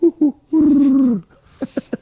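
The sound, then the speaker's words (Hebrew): A human voice imitates a dove's cooing: two short low hoots, then a long sustained coo that dips at its close, followed by three brief clipped notes. “יופי. זה חיקוי יפה. אתה יודע שזה חיקוי לא רע של יונה. חיקוי מצוין, כן.”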